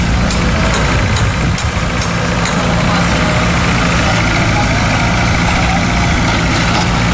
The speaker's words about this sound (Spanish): Sonaban este sonido de las obras porque se están construyendo allí también